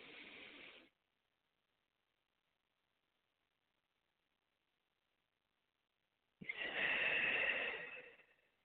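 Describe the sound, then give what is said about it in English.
Breathing during a guided prayer meditation: the tail of one breath fades out, several seconds of silence follow, then a long, full breath swells and fades softly. “be still and know that I am God. Let's breathe.”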